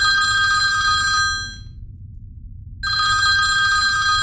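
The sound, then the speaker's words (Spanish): A telephone bell rings in a loud, bright electric trill, falls silent for about a second, then starts ringing again, with no voices. “¿No vas a coger el teléfono? Pensaba que lo ibas a coger tú.”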